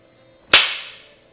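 A belt smacks once: a single loud, sudden crack that tails off over a short, fading ring, with nothing else around it.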